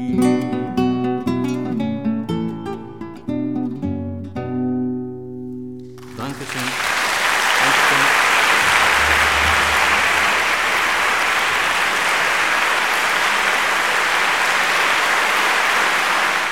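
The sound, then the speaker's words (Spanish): Audience applause after a live song performance. A loud, dense wash of clapping breaks in as the song's last notes end, then continues steadily to the close. “que salva de aplausos”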